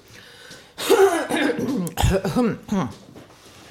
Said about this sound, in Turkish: Ama bak şarkı der demez gıcık bastı boğazımı.